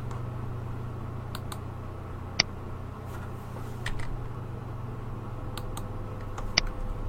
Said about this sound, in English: So in the name, I'm going to type calendar.